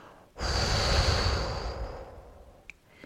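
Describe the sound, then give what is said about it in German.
A deep, slow breath taken in through the nose and let out through the mouth during a calming breathing exercise: one long, steady airy rush, fairly loud and alone, fading away after about two seconds. “So kannst du durch tiefes Einatmen durch die Nase kurz innehalten und dann ganz tief wieder ausatmen durch den Mund.”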